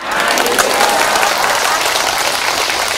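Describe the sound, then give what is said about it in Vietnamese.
Steady applause from an audience at a Buddhist nun's dharma talk, a dense, continuous clatter of many hands clapping that holds at an even, loud level through the whole clip without a break. “Đúng rồi, cho tràng pháo tay.”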